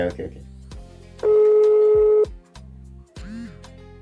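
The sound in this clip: A telephone call is dialled and connects, with short electronic beeps and then a steady, even tone lasting about a second, set among people talking.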